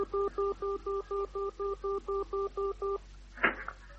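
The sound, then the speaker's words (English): A telephone number is dialed as a rapid, even series of many short electronic beeps at a steady rhythm, followed by a brief click, all fairly faint. “I dialed Haywood 357.”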